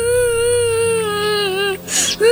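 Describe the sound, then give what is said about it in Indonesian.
A child, upset at being bullied, cries in one long, drawn-out wail whose pitch wavers slightly. The wail breaks off briefly for a shorter, harsher outburst, then resumes at the end. “Loh, Nak, kenapa kau menangis?”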